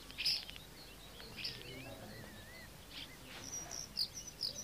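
Starlings chirp in a garden: faint scattered high chirps and short whistled warbling phrases over a quiet, hissy background.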